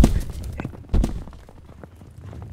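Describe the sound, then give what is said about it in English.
Hooves of two galloping horses, one a well-trained palomino, slowing to a halt: two heavy thuds, one at the start and one about a second in, then lighter, irregular clops that thin out and fade. “Both men hit the ground as Silver and the well-trained Palomino slowed to a halt.”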